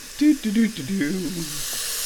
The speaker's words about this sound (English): So we fill up the big old thing full of water.